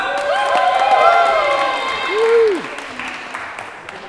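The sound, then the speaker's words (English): A comedy-night audience applauds and cheers as the first stand-up comic is welcomed on stage: steady, loud clapping with high whoops and shouts riding over it throughout. “So put your hands together and welcome on stage your first comic of the night, Vasu Arora!”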